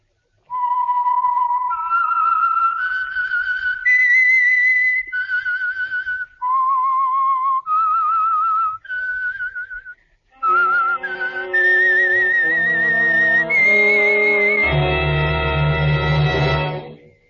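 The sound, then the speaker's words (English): A whistled signal tune, a slow melody of long, clear held notes in two phrases, whistled loud and alone at first, then joined near the end by a sustained instrumental chord. “the signal to listen for is this whistle that identifies the Signal Oil program, The Whistler.”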